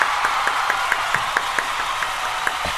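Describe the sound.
Audience applause for a performer at an awards event: a dense, steady bed of clapping with regular, evenly spaced sharper claps standing out in a beat-like rhythm.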